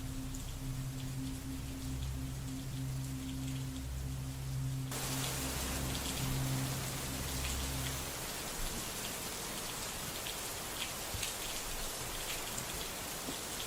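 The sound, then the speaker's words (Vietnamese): Heavy rain pours onto the tin roof of a small attic at night, a steady, dense hiss that stays loud and even from start to finish, with a low sustained tone underneath during the first half. “Chỉ còn lại tiếng mưa vẫn cứ ào ào rội xuống mái tôn của căn gác nhỏ.”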